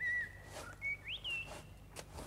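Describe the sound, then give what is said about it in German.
Fluty whistled song of a golden oriole in a hospital garden: a few clear, sustained notes with one brief rising-and-falling slur in the middle, fairly faint and alone. “Naja, warum sollen die hier im Krankenhausgarten kein Pirol haben?”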